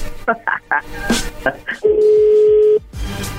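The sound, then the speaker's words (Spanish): Telephone keypad tones as a number is dialed again: a quick series of several separate beeps, then a longer steady tone, with voices talking over them. “A ver, ahí se está marcando de nuevo.”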